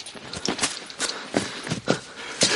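Running footsteps as Aragorn hurries to Boromir, who lies on the ground: a quick, uneven series of scuffing footfalls and light impacts, moderately loud, with no voices.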